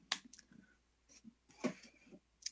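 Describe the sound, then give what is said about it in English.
A hand sanitizer dispenser gives a few sharp, crisp clicks, spread apart with quiet gaps between them, fairly faint overall. “Hear the click of the hand sanitizer. So beautiful.”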